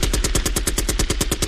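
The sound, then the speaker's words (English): Gunshot sound effect in a rapid automatic burst, with many loud, evenly spaced sharp cracks firing without a break for the whole moment. “Shots fired.”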